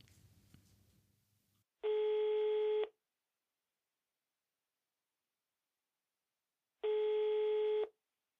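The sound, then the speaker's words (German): Ringing tone of an outgoing telephone call: two steady electronic tones, each about one second long, separated by roughly four seconds of silence, after a faint noisy start. “wir sollen ihn mal anrufen, wenn wir aufzeichnen. Und das machen wir gleich.”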